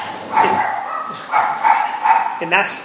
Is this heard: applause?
no